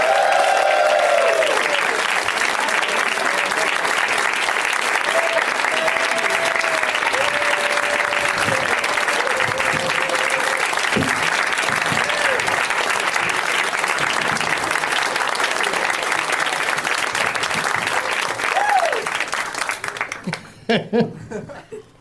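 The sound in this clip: Audience applause and laughter welcome four guests. Dense clapping mixed with chuckles and crowd noise holds for about nineteen seconds, then thins out into scattered claps.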